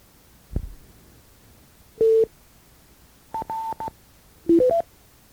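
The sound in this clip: Telephone keypad touch tones entering digits and star commands into a message system: a low thump, then short, pure beeps in separate bursts, a single tone first, then a few tones grouped closely, then three quick rising beeps.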